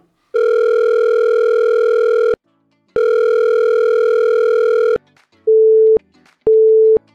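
Telephone ringing tones before a call reaches voicemail: two long, steady buzzing rings separated by a short pause, then two shorter, purer beeps with a gap between them.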